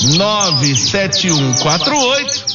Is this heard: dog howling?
no

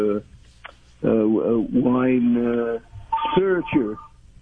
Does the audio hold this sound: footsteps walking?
no

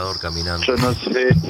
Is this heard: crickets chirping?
yes

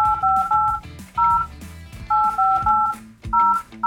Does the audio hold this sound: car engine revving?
no

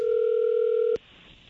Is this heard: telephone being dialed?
yes

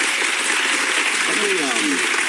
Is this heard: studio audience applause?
yes

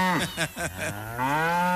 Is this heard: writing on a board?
no

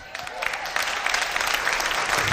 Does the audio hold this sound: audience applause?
yes

